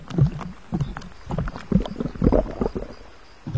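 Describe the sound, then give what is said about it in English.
Oars dip in and out of river water as a boat is rowed, giving soft, low splashes and swishes in an uneven rhythm with quiet gaps between strokes. “as oars dipped in and out of the water”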